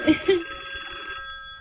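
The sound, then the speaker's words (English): A telephone ringing for an incoming call on a live call-in show: a thin, narrowband electronic ring with two short pulses at the start, then a steady tone that holds and fades out. “Okay, go answer the phone. All right, we'll answer the phone now.”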